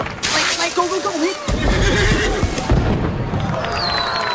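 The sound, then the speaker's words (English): A horse whinnies loudly in a shrill, wavering call that breaks into a few shaky pulses. A dense, noisy rumble follows, as firecrackers go off beside the tethered animal at a crowded event. “The firecrackers go off, making the horse rear and pull the stake that it's tied to out of the ground.”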